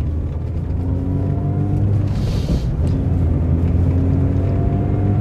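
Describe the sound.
A car is being driven, giving a steady low engine rumble with a faint harmonic whine. The droning stays even in loudness throughout, with no talking.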